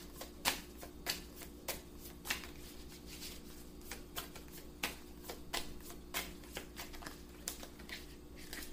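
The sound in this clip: Tarot cards being shuffled and pulled from the deck, heard as many crisp riffling snaps and flicks in an uneven rhythm, alone over a low steady hum.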